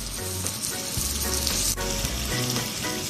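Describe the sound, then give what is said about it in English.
Chicken sizzles in a hot pan, giving a steady, dense crackle and spitting hiss with small pops scattered throughout, no voices. “And you'll actually see the chicken beginning to turn more opaque as it cooks. Now you want to cook it on the other side for another 2 to 3 minutes until it's fully cooked through.”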